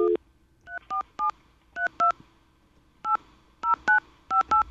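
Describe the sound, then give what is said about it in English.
Touch-tone keypad beeps as a phone number is dialed, with many short, crisp tones in quick groups separated by brief pauses, following a single lower beep at the start. “Would you like me to dial the number again? Let's dial the number.”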